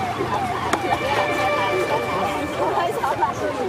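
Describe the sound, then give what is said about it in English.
A crowd gathers at the Qiantang River, where it meets the East China Sea, to watch the tidal bore. The hubbub of many voices forms a dense, continuous babble, with a sharp click near the start. “Where the Qiantang River meets the East China Sea, crowds gather to witness one of the planet's most remarkable wild spectacles.”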